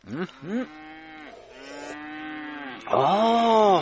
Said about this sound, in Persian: خانسه، صدای گومیش؟ ای گومیشتانم خوب شیر خواد داد